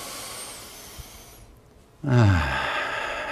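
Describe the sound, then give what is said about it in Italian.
A deep breath drawn in during a workout cool-down breathing exercise, heard as a soft breathy hiss that gives way to a louder, fuller rush of air, with no talking. “faremo 4 grandi respirazioni, inspiro”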